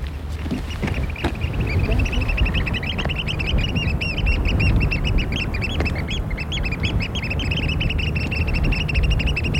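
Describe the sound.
A small shorebird gives a thin, plaintive whistling call, repeated many times as short, high-pitched peeps in an irregular series over a steady, noisy background.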